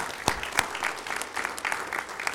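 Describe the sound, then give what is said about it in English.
Applause from a gathered group: a couple of sharp separate claps open it, then fuller clapping follows in uneven bursts that stay moderately loud throughout. “I think that warrants a little bit of applause.”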